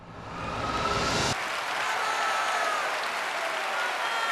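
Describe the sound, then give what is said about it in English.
A theatre audience rises to its feet and applauds: a thick, continuous roar of many hands clapping that swells at the start and then holds steady and full until the end. “who rise to their feet and applaud.”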